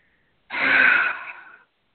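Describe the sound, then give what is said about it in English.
A deep out-breath during a guided relaxation session: one long, breathy exhale lasting just over a second, strongest at the start and then tapering off before stopping abruptly. “And just hold and give me a really good out breath again. Just that. And breathe out.”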